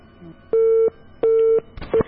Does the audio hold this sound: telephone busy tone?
yes